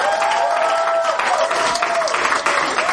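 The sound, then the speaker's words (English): An audience at a live performance applauds and cheers for a performer. Dense, loud clapping runs steadily throughout, with a few raised voices mixed in. “Ladies and gentlemen, make some noise for Jonathan.”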